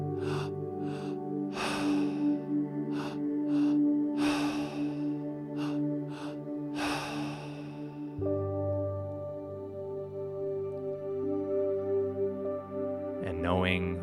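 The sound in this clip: Rapid breathing from a belly, chest, release exercise demonstration: a fast run of quick, forceful breaths over a steady droning tone, the bursts easing after about eight seconds.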